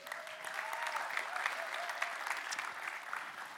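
Applause from a church audience welcoming a reader to the front, a steady, even patter of many hands clapping that runs unbroken throughout with no talk over it.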